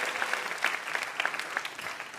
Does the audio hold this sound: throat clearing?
no